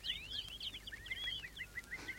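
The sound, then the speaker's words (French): Birds singing, a quick run of high, twittering chirps that carries on without a break, faint and steady with no voices. “Et les oiseaux chantent.”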